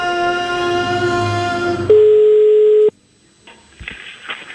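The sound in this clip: Tones on a telephone line as a call is placed: a buzzy, droning stretch, then one loud, pure, steady tone lasting about a second. It cuts off into near silence with faint noise.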